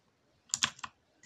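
Clicking of PC keyboard control keys pressed while playing a game: a few quick, faint key taps close together, then one more tap after a short pause, with no talk.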